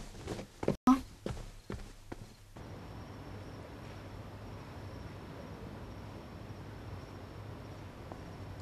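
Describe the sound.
Footsteps of someone walking away, a few sharp, uneven steps in the first couple of seconds, then they stop and a steady, even background drone carries on alone.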